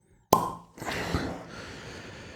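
A natural cork pops from a bulbous wine bottle: one sharp, loud pop, then a softer, noisy rustling tail that fades gradually.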